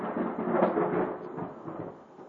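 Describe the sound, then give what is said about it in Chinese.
A low rumble of thunder rolls on for the whole clip, steady and fairly faint, gradually easing toward the end, with no voices. “感谢主，我们这边开始打雷了啊，谢谢耶稣。”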